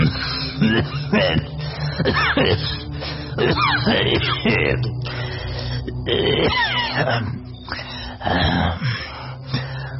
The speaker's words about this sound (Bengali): আমি পুঁটুলি খুলতে গেলে বুড়ো মরণ কাশি তুলে কেশে নিয়ে বলল,